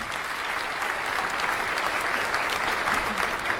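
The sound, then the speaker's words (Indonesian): Steady applause from an audience at a quiz competition after a correct answer: a dense, continuous clatter of clapping that holds at an even loudness throughout. “Iya, tepuk tangan Bapak Ibu.”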